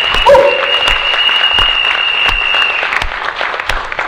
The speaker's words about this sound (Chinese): 给以上三个朋友再一次掌声。